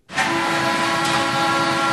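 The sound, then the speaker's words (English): Steady rumbling roar of a small train traveling through a metro-sized water utility tunnel deep under a river. It starts abruptly after a brief hush, then holds loud and even, with hiss and a sustained humming whine throughout. “Our story starts on a choo-choo train in a tunnel built for water. We are traveling in the Blue Plains Tunnel.”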